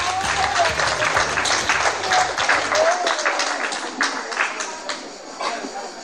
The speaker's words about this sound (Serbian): Aplauz!